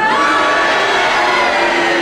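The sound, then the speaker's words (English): An audience cheering and booing together at a panel game show: a dense, continuous roar of mixed shouting voices that stays loud and steady throughout. “And if you agree with his challenge, will you cheer? And if you disagree, will you boo? And will you all do it together now?”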